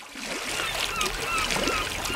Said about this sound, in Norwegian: Ja, jeg fant frem sommerlydene her ettersett. Bølgeskvulp og måkeskrik og humlesur.